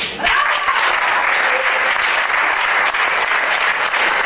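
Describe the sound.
Audience applause at a holiday premiere: dense, loud clapping that holds steady from start to finish without a break.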